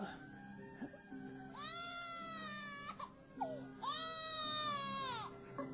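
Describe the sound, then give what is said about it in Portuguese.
A child crying hard, two long, loud wailing cries with shaky pitch, separated by short sobbing whimpers and gasps. “Por que essa infeliz criança chora tanto? Eu não aguento mais ouvir esse pobre infeliz.”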